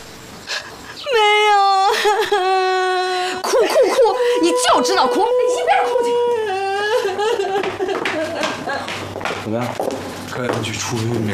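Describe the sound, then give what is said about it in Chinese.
A woman wails and cries loudly in long, high, wavering moans that break into choked sobs, the anguished crying going on without pause for several seconds. “哭哭哭！你就知道哭，你一边哭去。”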